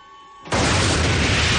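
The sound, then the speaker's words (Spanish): A gas pipe erupts into flame after a gunshot in a 1999 action thriller film: a faint hum, then an abrupt loud roaring blast that holds at full strength to the end. “De pronto Danny descubre a otro muy cerca y dispara junto a una tubería de gas que hay a su lado.”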